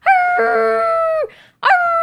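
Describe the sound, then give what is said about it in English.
A dog howls: one sustained, tonal howl of just over a second that slides down in pitch at the end, then a second howl begins after a short pause. “He comes over and stands at the end. How is his howl?”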